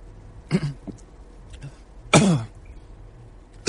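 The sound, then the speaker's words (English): A man coughs and gags on something stuck in his throat while welcoming people back to his radio show: a few harsh, raspy bursts separated by short pauses, the loudest in the middle, with faint smaller catches between them. “Getting something stuck in his throat as he welcomes back people to his radio show.”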